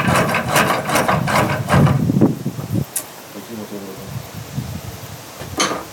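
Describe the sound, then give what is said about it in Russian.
A small wooden lathe turns a spindle, driven by a cord by hand while a cutter is held to the wood. Rapid, loud wooden knocking and whirring runs for about three seconds, then fades into quieter scraping and rustling. “Маленький токарный станок для производства веретен.”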